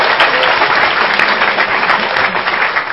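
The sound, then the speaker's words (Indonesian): An audience breaks into loud, sustained applause, dense overlapping clapping that stays steady for the full three seconds without a break. “teman-teman sekalian, tepuk tangan yang meriah penuh cinta.”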